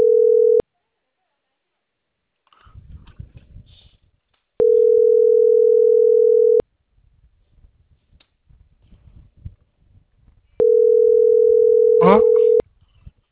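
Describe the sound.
Ringback tone of an unanswered telephone call: three long, steady, mid-pitched tones, the first cut short, each separated by several seconds of quiet. Faint voices talk during the gaps.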